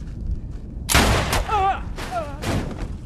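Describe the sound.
Gunfire from a science-fiction drama scene aboard a spaceship, where a man is shot on command: a loud, sharp blast followed by another burst, with brief voiced cries between them.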